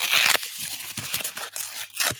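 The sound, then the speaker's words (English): A paper envelope being torn open, with a loud ripping burst at the start followed by a few shorter tearing and rustling bursts, with no voices. “I'll crack the envelope open.”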